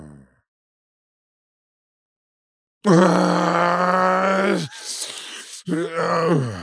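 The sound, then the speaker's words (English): A voice imitates snoring with sleep apnea. After a long silence come loud, strained, groaning snore sounds, then a brief raspy, breathy snort and one more drawn-out groan. “He was actually snoring himself back to life.”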